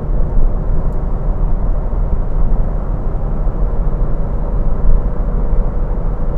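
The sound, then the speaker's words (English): A powerful car being driven, its engine and road noise forming a loud, continuous low drone that holds steady throughout. “You know, I don't very often drive this car. It seems like I haven't driven this car in many, many, many time periods.”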